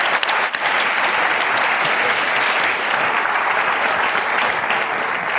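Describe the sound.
A lecture audience at the LSE applauds to welcome economist Thomas Piketty: loud, dense, unbroken clapping that holds at an even level for the whole stretch.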